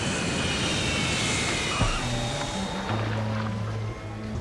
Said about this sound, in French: Mesdames, messieurs, nous allons atterrir dans quelques minutes.